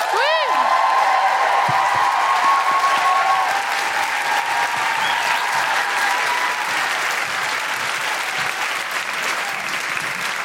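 An audience applauds and cheers in a dense, sustained wash of clapping. A swooping whoop rises above it at the start, and the applause stays loud throughout.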